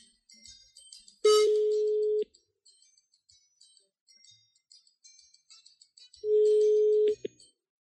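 Telephone ringing tone on a line as a call goes through: two long, steady, mid-pitched rings about four seconds apart, with faint high chirps in between.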